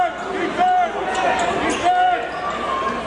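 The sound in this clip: A basketball is bounce-passed on an inbound play during a game, giving a dull thump on the court under steady commentary, with faint high squeaks.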